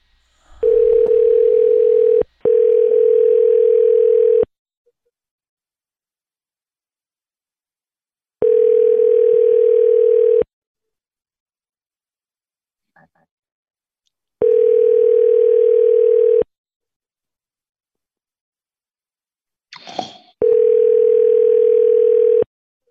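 Ringback tone on an outgoing phone call: five steady, level buzzing tones of about two seconds each, the first two back to back and the rest separated by roughly four-second silences, with a brief click near the end.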